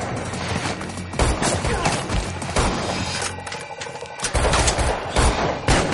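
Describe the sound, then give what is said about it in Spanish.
Gunfire from an AR-15 and a submachine gun as John Wick shoots his attackers in a film fight, with many loud, sharp shots fired in rapid bursts and some heavy impacts. “Mata a los que se acercan. Se levanta y dispara al del suelo.”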